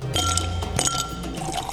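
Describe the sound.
Aguardiente liquor being poured into a glass: a short, bubbling stream of liquid with a few bright glassy clinks, heard alone with no talk.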